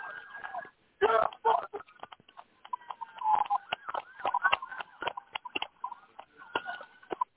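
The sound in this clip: A taser fired during an arrest of a fleeing man in a ski mask gives a sharp pop, followed by many rapid, irregular clicks and knocks, with voices heard throughout.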